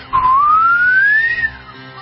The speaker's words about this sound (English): What is a turbocharger? Ooh, it spools up, and when it spools up, hang on, it is going to whistle like, woo!